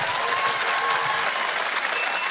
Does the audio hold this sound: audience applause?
yes